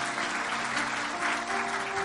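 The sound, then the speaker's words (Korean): A church audience applauds to welcome a newly proclaimed learner member: dense, steady clapping that holds at an even level for the whole two seconds, with no voices on top. “박수로 한번 격려하겠습니다.”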